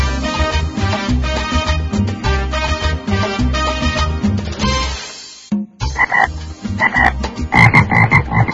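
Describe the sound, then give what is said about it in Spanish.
A man vocally imitates a toad croaking at a live show, producing rapid, throaty, pulsing croaks in a steady rhythm. A short break comes just past the midpoint, then louder, strongly voiced croaks follow. “¿podés cantar como un sapo, por ejemplo? Sí, claro que sí”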